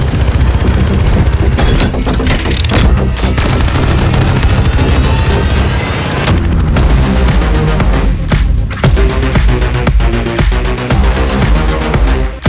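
Firecrackers burst at a party, a loud, continuous barrage of sharp cracks and booms packed closely together with almost no pauses, sustained at full volume for the whole stretch.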